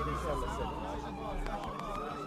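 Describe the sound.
Ambulance siren in Dubai: a wailing tone that sweeps down and then climbs again, heard beneath people talking.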